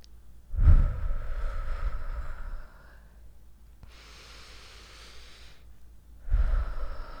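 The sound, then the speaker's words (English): A deep breath taken slowly, with long airy breath sounds, two drawn-out phases and the start of another breath at the end. “Like, I seriously just need to take a breath. Like, literally, let's do it together.”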